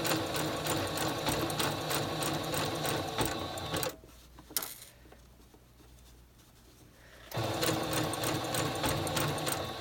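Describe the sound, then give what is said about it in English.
A sewing machine stitches a blind hem, its needle running along the seam allowance and catching the fold every few stitches. A fast, even mechanical patter runs, stops for a few seconds with a brief clunk, then resumes at the same pace. “needle is going just down this side piece here, this little seam allowance, and then every few stitches it's going over and catching the fold, and that's what's creating the hem.”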